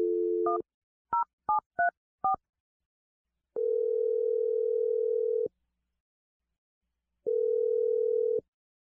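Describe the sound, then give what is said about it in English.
Telephone dial tone cut short by a quick series of keypad beeps as a number is dialed, then two long steady tones separated by silence. “I'm going to dial Kat's number, and we're going to see what she says.”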